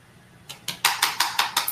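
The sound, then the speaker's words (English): A utensil clinks rapidly against a bowl while salt and ginger are stirred into almond flour dough, a quick, even run of bright taps that starts faint and grows louder. “Okay, so we're just going to mix this right in. Just get that all together so it's nice and doughy.”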